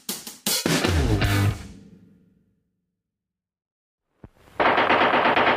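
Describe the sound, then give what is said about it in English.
Machine-gun-like rattle from a Mattel Thunderburp toy gun with a vibrasonic sound chamber, needing no batteries or caps. A loud rapid burst fades into silence, a short sharp click follows, then another loud burst of rattling fire. “It's the Mattel Thunderburp with the real vibrasonic sound chamber that's loaded forever and ever. No batteries, no caps. That Thunderburp looks like real, sounds like real.”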